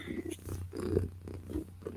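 A cat purring: a soft, fairly faint low rumble with a steady, rhythmic pulsing that continues throughout.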